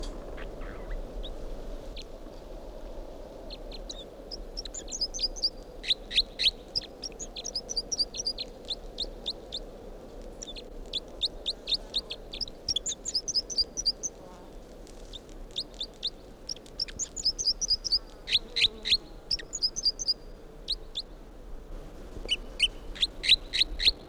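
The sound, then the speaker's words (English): A recorded bird's song sounds as many repeated phrases of high, rapid chirping notes over a steady low background hum. “this is the song of bird 305.”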